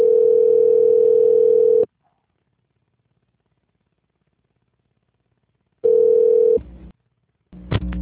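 Steady telephone line tone heard while a call is being transferred. It plays as two long, even bursts separated by several seconds of silence, and brief line noise and clicks follow the second burst.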